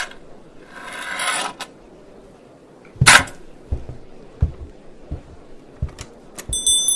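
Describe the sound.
Rasping rub of a key being polished, a scraping stretch followed by a series of small clicks and knocks over a low background noise.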